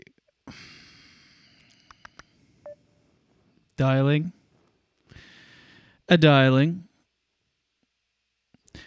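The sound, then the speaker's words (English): Telephone dialing tones as a call is placed to a clothing company owner: a few faint short beeps, then two loud, long buzzing tones separated by a pause. “Dialing.”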